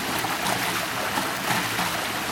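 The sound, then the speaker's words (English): Gentle waves of excess water spill over a concrete ledge, down a series of steps under a short bridge and into a canal on a blustery day, making a steady, even wash of water. “it's just overflowing into the canal. What you're hearing is the gentle waves of the excess water.”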